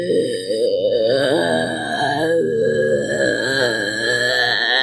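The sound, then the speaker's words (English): A voice imitates a zombie groan: one drawn-out, throaty moan lasting about five seconds, with a wavering, quivering pitch and a rough, gravelly edge, heard alone without other sounds. “I've been practicing my zombie noises for if ever there's like a zombie movie recording in Birmingham. Okay. It goes like this.”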